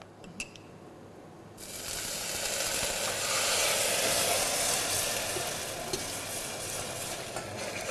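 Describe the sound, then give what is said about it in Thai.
Sugar caramelizing in a pan over low heat while a sauce is being made: a steady crackling sizzle that swells after a soft start, with faint scraping stirring ticks and no talk. “ตอนนี้ขั้นตอนนี้ครับเราจะต้องเจียวน้ำตาลนะครับให้ขึ้นสีก่อนเราเรียกว่าการขึ้นสี”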